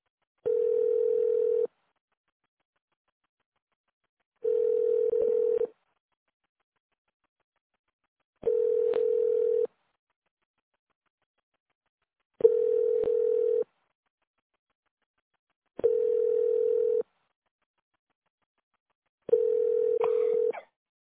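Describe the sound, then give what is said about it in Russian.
A telephone ringback tone sounds while a call is placed: six identical steady mid-pitched beeps, each about a second long, separated by even gaps of a few seconds of silence, fairly quiet and alone. “Должен дозваниваться. Оставайтесь на линии.”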